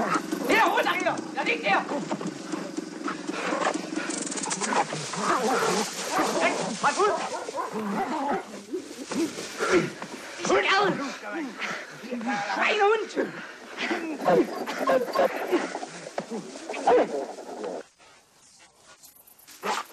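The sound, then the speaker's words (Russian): German shepherds barking, yipping and whimpering as they chase a man across a field and are set on him by soldiers; many sharp, excited barks in rapid bursts, with voices over them. “Сначала две немецкие овчарки, а потом их хозяева.”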